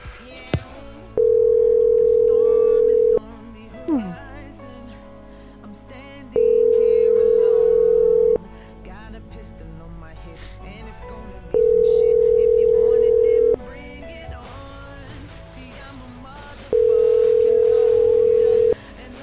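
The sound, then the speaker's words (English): A telephone line tone sounds after a phone call is disconnected. Four steady mid-pitched beeps, each about two seconds long, are separated by longer gaps with voices talking in between. “I think the phone line got disconnected there.”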